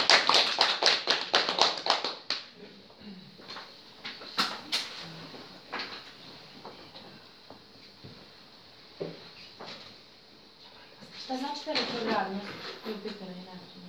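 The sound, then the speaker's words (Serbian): Applause from a small audience at a talk: a short burst of dense, quick clapping for about two seconds, followed by a voice talking over quieter sounds. “Možemo jedan aplauz za sve nas od za tu radiju.”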